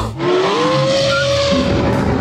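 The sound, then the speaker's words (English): A busted car fan belt squeals loudly: a shrill, continuous whine that slides upward in pitch early on and then holds steady under a rough mechanical rush. “That's not a lie. That was my busted fan belt”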